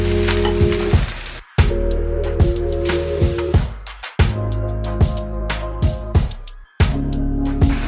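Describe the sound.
Beaten eggs sizzle in hot oil and butter in a frying pan: a steady crackling hiss broken by a few short pauses.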